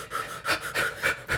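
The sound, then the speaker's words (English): Fire breath, a rapid and forceful rhythmic breathing exercise: about five quick, breathy huffs in even succession. Each exhale is airy and pulsing, with no speech over it. “Fire breath”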